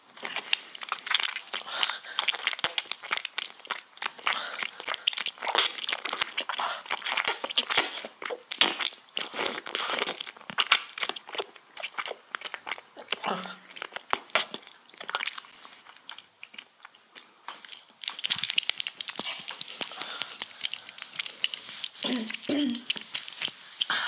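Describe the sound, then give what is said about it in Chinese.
Someone eating a bite of cake: many close, moist chewing and biting sounds with soft crunches in an irregular rhythm, and a faint voice heard briefly. “我真的好饿，我要吃一口我的蛋糕。”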